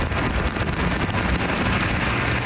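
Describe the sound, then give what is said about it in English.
Continual rainfall outdoors makes a loud, steady wash of hiss and patter, thick and unbroken, with some low wind rumble mixed in. “Despite the continual rainfall, people Global spoke with say they're happy to have the rain after the hot temperatures.”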